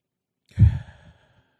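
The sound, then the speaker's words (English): A single slow, deep breath out during a guided relaxation exercise, heard on its own as a soft, sigh-like exhale that swells briefly and trails off into quiet. “Wherever you are, take a few slow, deep breaths.”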